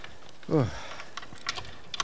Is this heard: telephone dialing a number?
no